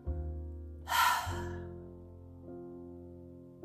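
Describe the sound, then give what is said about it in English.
A short, sharp breath drawn in, a brief airy rush rising over low sustained musical tones that continue softly afterward. “How do you feel? Take a breath.”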